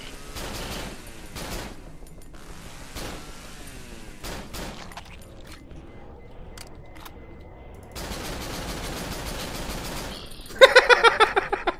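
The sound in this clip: Gunfire in a video game boss fight: scattered sharp shots and short bursts, then a rapid closing run of several quick shots that fade one after another. No voices.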